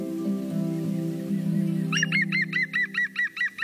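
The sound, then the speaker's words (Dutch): A green woodpecker calling after flying out of a plot of young pine trees, a rapid laughing series of about ten ringing notes, following a low droning hum that fills the first half. “Maar wat vloog er vanmorgen uit een perceel jonge dennen? Zomaar een groene specht.”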